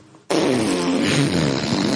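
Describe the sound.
A voice imitates a fart with a sudden, loud, raspy blast that starts abruptly and holds steady for nearly two seconds.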